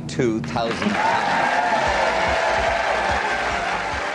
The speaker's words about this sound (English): The crowd seemed to get particularly enthusiastic at that point.